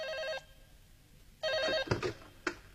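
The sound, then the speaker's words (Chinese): A telephone rings twice in short electronic bursts with a gap between, followed by a few brief clunks and knocks. “突然接到一个匿名电话”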